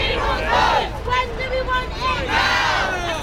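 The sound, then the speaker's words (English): Crowd of some 700,000 protesters marching through central London, campaigning for a second referendum on EU membership; a loud, continuous roar of many voices shouting and chanting in surging waves. “That's the sound of 700,000 people marching through central London.”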